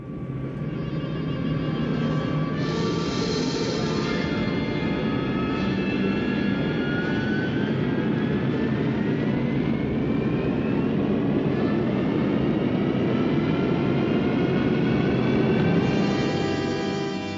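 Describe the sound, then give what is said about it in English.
A spaceship engine starts and the ship flies off with a loud, continuous jet-like roar. Whining tones inside it climb in pitch partway through, and the roar stays strong for the whole clip. “I'm putting the ship into gear now. Here we go.”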